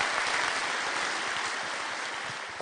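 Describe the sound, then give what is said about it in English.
A church audience applauds to welcome a guest speaker, a dense, continuous wash of many hands clapping that holds steady and then slowly fades. “Let's put our hands together and give our warmest Common Way Church welcome to Dr. Ben Witherington.”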